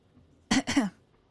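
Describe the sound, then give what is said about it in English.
A person in a library clears their throat in two short, harsh bursts in quick succession, moderately loud against near silence. “Lily opened her mouth to protest, but was interrupted by someone clearing their throat.”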